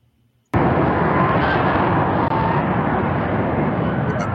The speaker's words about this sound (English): Obviously coming in for a landing and something went wrong with like one of the thrusters